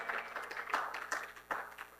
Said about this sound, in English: Now, give the Lord a hand clap of praise.